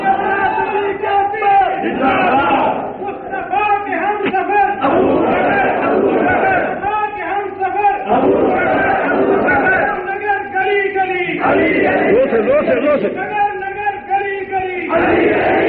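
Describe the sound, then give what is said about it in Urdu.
A large crowd chants the slogan "Ali Ali" in loud, rhythmic surges of massed voices, the shouts repeating without pause throughout. “اتنی آواز آنی چاہیے اس نعرے کی، علی علی کا نعرہ اتنا عام ہونا چاہیے کہ دنیا کو پتا چل جائے کہ علی ہے سنیوں کا”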